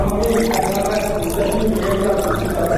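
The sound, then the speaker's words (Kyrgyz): Water poured while serving a dissertation committee and preparing tea and coffee, a continuous, fairly loud splashing flow that runs steadily throughout. “Жолдошу докторлук диссертациясын жактап жаткан Айнура комиссия мүчөлөрүнө суу берип, чай кофесин даярдоо менен алек болуп жаткан кезе.”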